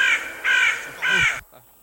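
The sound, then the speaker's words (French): A crow cawing: three harsh, loud caws in an even rhythm, each cut off short. “C'est corbeau. C'est corbeau.”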